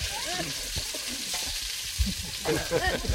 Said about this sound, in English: The pumpkin leaves are rolled in the rice batter, deep fried.